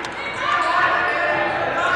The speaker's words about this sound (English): With a dribble right side down the baseline.